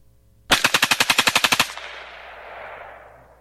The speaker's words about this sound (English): Is that possible? Automatic rifle using only my finger.